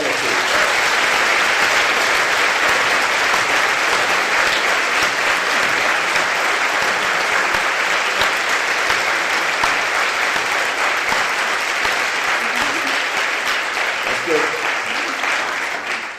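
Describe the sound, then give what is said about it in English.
Loud, sustained applause from an audience welcoming Nancy Pelosi to an evening conversation event, a dense unbroken roar of many clapping hands lasting the full sixteen seconds before easing slightly at the end. “I wonder if we can put our hands together to welcome Nancy Pelosi.”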